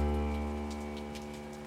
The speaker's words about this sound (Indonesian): Itu suara hujan yang jatuh di atas genting.